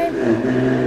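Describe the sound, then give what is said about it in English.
A red Ferrari driving past on a street in Geneva, a brief engine growl with a low rumble, heard under a voice speaking. “And this is the sound of a red Ferrari that's just come past.”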